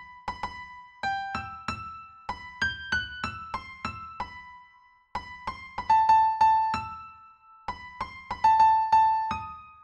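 The brooding first theme of a first movement in E minor, played as a series of separate ringing notes with clear decays, grouped in phrases with short pauses between them, without voices.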